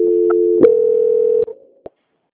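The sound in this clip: Telephone call-transfer tones: a loud, steady low tone, then a click and a second sustained tone, followed by a couple of brief clicks as the line switches over. No voices are heard.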